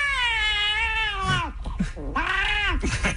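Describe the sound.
A cat meows with a toy held in its mouth, giving two drawn-out, harmonically rich meows with a muffled, thick quality, loud and on its own.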